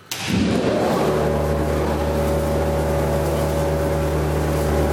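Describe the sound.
A conveyor belt starts with a sharp onset and settles into a loud, steady, low mechanical drone with a sustained tonal hum and no talk over it.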